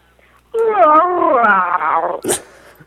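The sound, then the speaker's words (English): A person's voice imitates a female Wookiee with a sustained, warbling growl-howl lasting over a second, its pitch gradually sliding downward, followed by a short breathy burst. “Okay, make your best Wookiee sound.”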